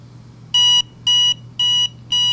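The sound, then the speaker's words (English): Electronic beeping from a battery power bank set to beep mode, signalling full charge: four evenly spaced, steady high-pitched beeps, each about a quarter second long, over a faint low hum. “And again, 4 beeps tells me that this battery pack is fully charged and ready to go.”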